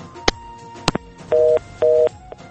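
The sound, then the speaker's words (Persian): Phone line tones after a caller's call drops on a radio show: a few sharp clicks, then two identical steady beeps, each lasting about a quarter second, separated by a short gap. “تماس برادر عزیز ما محمد تنها قطع شد.”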